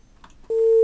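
Telephone busy tone after a caller's line dropped, a single loud, steady, continuous tone that starts abruptly midway and holds to the end, preceded by faint murmur.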